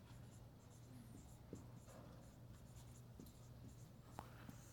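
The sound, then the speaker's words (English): Quiet scratching strokes of a word being written by hand on a board, with a few soft taps between strokes and no talking. “All right, so I'm going to write transformed here.”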